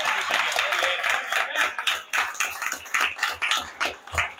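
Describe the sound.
An audience claps for a cook after her cooking talk, sharp claps falling into a loose repeating beat with gaps between the bursts.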